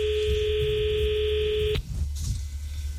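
A telephone tone sounds steadily for nearly two seconds during a call attempt that fails, then cuts off abruptly and leaves a low background hiss.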